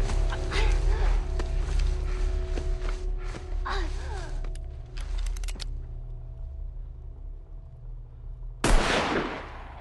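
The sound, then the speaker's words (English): A single sharp gunshot from a handgun goes off among trees near the end, a sudden loud burst that decays quickly after a long stretch of low, steady rumbling background sound. “A small flash of gunfire lights up among the trees.”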